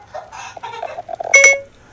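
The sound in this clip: A phone's Siri voice assistant activates as the phone is held up to a microphone. A brief stretch of voice is followed by a short, bright electronic chime of stacked tones.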